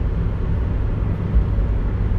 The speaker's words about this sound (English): I'm just driving into work